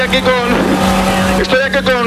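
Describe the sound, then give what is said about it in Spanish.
Inside a moving bus: steady, loud engine and road rumble that carries on throughout, with voices talking over it. “Ya estoy dentro, estoy dentro del autobús.”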